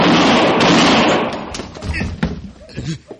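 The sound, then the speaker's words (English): A gunshot rings out during an armed standoff in a Western drama: a loud burst that fades over about a second, followed by men talking. “He shot me, Marshal.”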